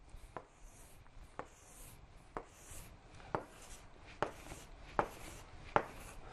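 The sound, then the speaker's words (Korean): Pen drawing a table on paper: seven short, scratchy strokes at a steady pace of roughly one per second, each crisper and louder than the last, over a faint background hiss. “자, 그러면은 기본표 그려볼게요.”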